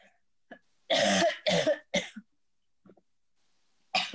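A man coughing: three harsh, throaty coughs in quick succession, a short pause, then one more, with faint throat sounds between them.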